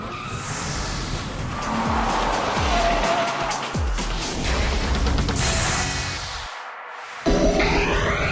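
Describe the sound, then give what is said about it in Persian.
A 2015 Lexus RC sport two-door coupe is driven hard, its engine roaring as the revs swell and fade, with tire squeal running throughout before the sound cuts off near the end. “لکسس 2015 RC نشانه ورود مجدد این مارک تجاری به رده دو درهای اسپورته”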